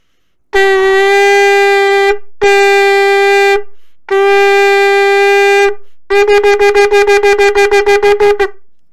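A shofar sounds shevarim-teruah: three sustained, reedy broken blasts separated by short gaps, then a rapid run of many short staccato pulses, all loud and alone.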